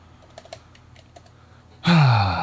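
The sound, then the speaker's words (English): Typing a message on a computer keyboard: soft, irregular key clicks for a couple of seconds, then a loud harmonic sound abruptly cuts in at the end. “Let me just type one message here.”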